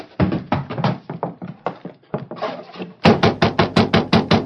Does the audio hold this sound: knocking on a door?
yes